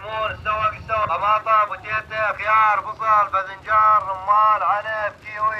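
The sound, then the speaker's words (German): An amplified voice calls out from a loudspeaker on a pickup truck rolling slowly through a farming village, offering fruit and vegetables in steady, tonal phrases with brief pauses. “Da fahren junge Leute mit einem Pritschenwagen langsam durchs Bauerndorf.”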